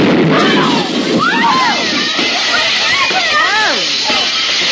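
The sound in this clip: A boiler on the verge of collapsing hisses steam in a loud, continuous rushing wash, with voices rising and falling over the noise throughout.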